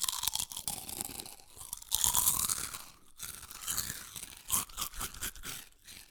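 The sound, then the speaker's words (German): Crunching and chewing of lentil chips, close and crisp: many dense, crackly bites and grinding chews fill the stretch without any talk. “Oh ja, erstmal Linsenchip essen”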